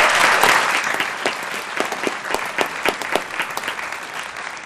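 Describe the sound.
A crowd at the 2012 National We the People competition in Washington, D.C. applauds drummers after their drum processional. The clapping is loud and steady at first, and single claps stand out as it thins.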